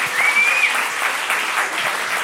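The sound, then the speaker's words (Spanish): An audience applauds a participant at a game segment with loud, steady, unbroken clapping. A brief high whistle-like tone sounds near the start. “Vamos a darle un aplauso aquí a ¡grande! Nuestro participante.”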